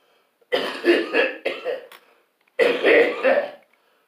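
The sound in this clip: Harsh, hoarse coughing from a person smoking a blunt of mullein herb mixed with marijuana. Several rough coughs come in two bouts separated by a short pause, loud and alone against silence.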